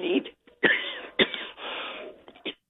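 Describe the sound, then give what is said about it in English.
Throat clearing, a few rough, raspy bursts in quick succession with short gaps, sounding partly like coughs, moderately loud and with no words spoken. “Go ahead and clear your throat there”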